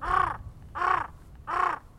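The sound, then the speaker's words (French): Raven calls, softer than a carrion crow's: three hoarse, evenly spaced caws, each about a third of a second long, repeated at a steady rhythm with short quiet gaps between them. “Alors le corbeau, c'est plus doux. Le corbeau, c'est...”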